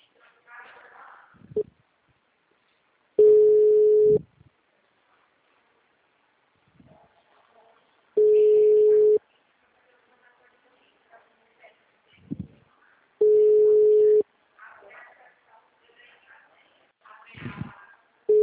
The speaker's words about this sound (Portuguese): como tá discando aqui